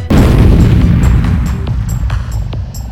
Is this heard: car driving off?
no